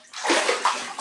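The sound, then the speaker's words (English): Water sloshing in a bathtub as a person soaps up, with a few soft splashing surges over about a second and no talking. “that sound you hear is me soaping up.”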